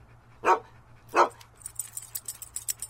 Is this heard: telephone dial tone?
no